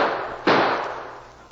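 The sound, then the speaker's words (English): A gunshot cracks in a radio drama: one sudden, loud bang that rings out and slowly decays, following the fading tail of an earlier report. “Shoot a couple of times more.”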